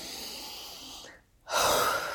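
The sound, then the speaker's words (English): A person takes a single deep in-breath, a loud airy inhalation that follows a brief near-silent pause after a quieter stretch of soft breath noise. “What I actually want you to do is stop, pause, and breathe in.”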